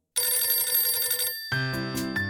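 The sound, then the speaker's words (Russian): A telephone rings with a bright, buzzing electronic trill for about a second, then gives way to a lower, steadier tonal pattern. “У меня зазвонил телефон.”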